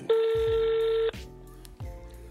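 Ringback tone of an outgoing phone call: a steady, buzzing tone held for about a second, a short gap, then the next ring beginning.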